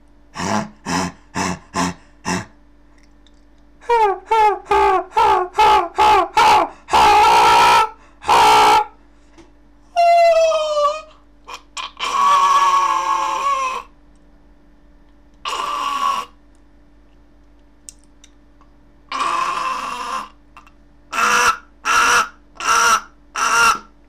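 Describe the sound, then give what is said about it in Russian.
Crow cawing in many harsh, loud calls grouped in rhythmic bursts, some short and clipped, others drawn out and raspy, with brief pauses between the series. “Любимая ворона, еще.”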